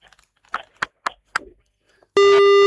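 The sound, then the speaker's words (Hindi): A phone line tone after a call drops: a few brief, broken crackles give way to a loud, steady electronic tone that starts abruptly and holds to the end. “Cut गया phone, आ जाएगा।”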